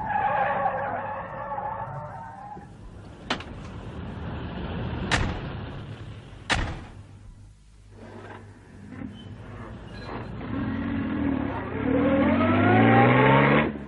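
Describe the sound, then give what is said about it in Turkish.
A car is driven fast, with loud, continuous engine noise, a few sharp cracks or skid bursts along the way, and revving that climbs in pitch toward the end. “Çok hızlı sürüyorsunuz. Yavaş gidin biraz.”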